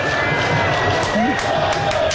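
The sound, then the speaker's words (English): Stadium crowd in Seattle cheering for US men's national soccer team manager Mauricio Pochettino: a steady, dense roar of many voices that holds at an even loudness throughout. “The crowd in Seattle letting him feel the love, man. I loved this.”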